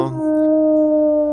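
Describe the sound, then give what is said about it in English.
A creature's howl, one long sustained call held at a steady pitch with rich overtones, loud and alone without any talk. “do you hear that? I think it's the call of a cryptid.”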